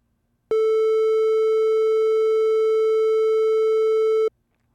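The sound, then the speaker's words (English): Triangle wave from a Korg microKorg synthesizer: a single steady, sustained tone held for nearly four seconds at one mid-low pitch, starting and stopping abruptly, alone and evenly loud throughout. “So, now let's listen to a triangle wave.”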